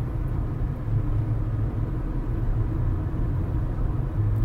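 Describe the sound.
Steady low rumble of a car being driven, heard from inside the cabin: a continuous, even drone of engine and road noise with no talk or other distinct sounds.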